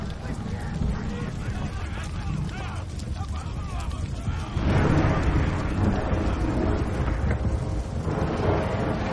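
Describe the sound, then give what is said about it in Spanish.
Heavy rain in a thunderstorm over a city, a dense, loud roar of rain with deep thunder rumbling, growing stronger about halfway through, with voices heard in the mix. “Nubes de tormenta se ciernen sobre la ciudad. Llueve copiosamente.”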